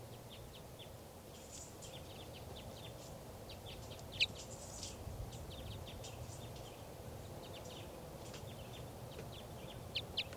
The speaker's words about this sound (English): Start recording bird 4:11.